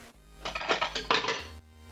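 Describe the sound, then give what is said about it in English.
A metal spoon is dropped onto the floor of a robot competition venue, giving a few bright metallic clatters and clinks in quick succession before it settles. “I'm dropping a spoon.”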